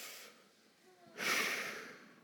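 A crowd takes a deep breath together on cue: a quiet, soft intake swells, then a loud, broad, airy rush of many breaths holds and slowly fades.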